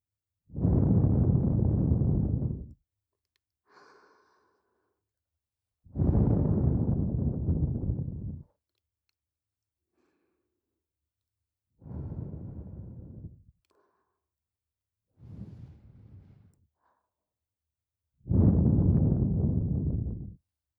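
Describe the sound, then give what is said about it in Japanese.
Soft breaths blown into the listener's left and right ears in a close, whispery ear-blowing sequence: five long airy puffs of about two to three seconds each, separated by quiet pauses with tiny faint mouth sounds. “じゃあ、お待ちかねのお耳ふうふう、いっちゃいましょうか。いくよ。”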